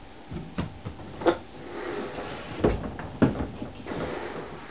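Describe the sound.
A door or cupboard being shut: a few dull knocks and thuds with soft rustling between them, the clearest near the middle and toward the end, with no talk.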